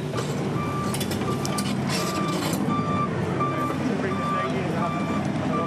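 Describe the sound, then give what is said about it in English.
A dumper truck reversing at a river gravel works, its reversing alarm sounding steady, evenly spaced high beeps over the rumble of a diesel engine and heavy machinery. “So the dumper puts it in and then the track machine will come in and disperse it afterwards in a specific way.”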